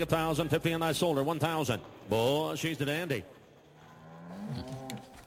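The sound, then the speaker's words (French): Cow mooing within a music track: several long, drawn-out lows with wavering pitch, followed by a quieter, lower moo that rises at the end. “Il fallait surtout laisser la vache faire son, comment on appelle ça, un hennissement, un meuglement. Un meuglement.”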